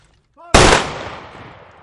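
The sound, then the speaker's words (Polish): A rifle volley fired as a ceremonial salute, heard as one sudden loud crack that decays into a rumbling tail, preceded by a brief shouted voice. “Ładuj! Salwa!”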